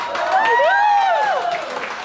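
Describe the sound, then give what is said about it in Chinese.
An audience applauds to welcome a woman guest. Dense, steady clapping lasts about two seconds, with voices calling out over it. “鼓掌。”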